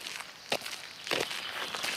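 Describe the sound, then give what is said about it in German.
Soft footsteps on a walk through a small city park, a few faint, separate steps with light crunching texture over a quiet, steady background hiss. “Ich laufe durch den kleinen Park mitten in der Stadt.”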